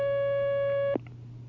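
A steady telephone line tone sounds as a new caller is connected on a phone-in line. It holds at one pitch for about a second, then cuts off with a click, leaving a low hum.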